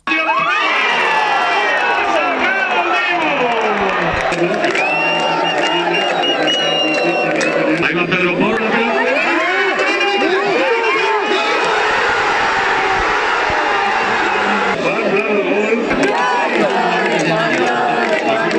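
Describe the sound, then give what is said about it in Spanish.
A crowd at Centro Botín celebrates Spain's World Cup final win with a dense, unbroken roar of cheering and shouting, staying loud and steady from start to finish. “Sonido de anoche en el Centro Botín, uno de esos puntos en los que se pudo ver esta final que se sumaba a otros tantos rincones de la comunidad autónoma que vivían esta victoria con mucha emoción.”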